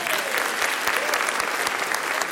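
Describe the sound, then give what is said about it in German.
Applause fills the whole stretch: dense, even clapping from many hands, held at a steady level with no breaks and no voices standing out. “Der ist Applaus.”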